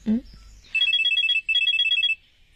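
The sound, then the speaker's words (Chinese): A telephone rings in two bursts of rapid, bright electronic trilling separated by a short gap. A brief low voice-like sound comes just before the first burst. “哎，我先给你接电话了。”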